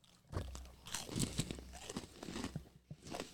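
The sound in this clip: Crunching and chewing of fudge-flavored Keebler elf cookies: a run of crisp, uneven bites and crackles. Loud at first, then a few softer crunches that trail off.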